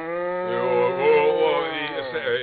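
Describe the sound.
A cow moos in a barn during morning milking, giving one long, steady, low lowing call that holds for about two seconds.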